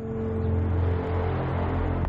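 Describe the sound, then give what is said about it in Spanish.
A car engine hums steadily as the car reverses out of Hank and Marie's yard and drives away from the house, a low even drone that holds at the same level throughout. “Se vuelve a girar y da marcha atrás. Sale del patio de Hank y Marie. Se aleja de la casa.”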